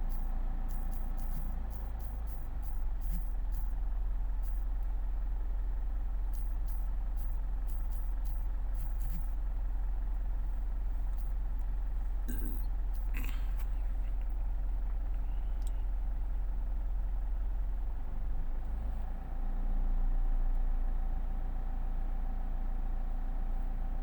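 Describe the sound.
A car engine runs at a steady, low, faint hum throughout, with a few light clicks and knocks scattered over the drone.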